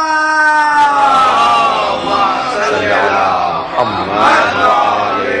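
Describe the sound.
A crowd at a Shia religious gathering shouts a religious slogan in response, many voices overlapping in a loud, sustained chorus that lasts the whole five seconds.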